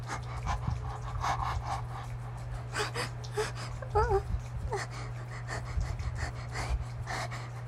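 Rapid, breathy panting with occasional gasps, coming in uneven bursts over a constant low hum.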